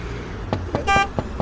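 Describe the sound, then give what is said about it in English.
Road traffic along Route 6 during morning congestion: vehicle rumble with a few soft thumps and one short, bright car-horn toot near the middle, fairly loud and without voices. “How are you finding the traffic today? What? Sorry, pardon me. Has the traffic been congested along Route 6?”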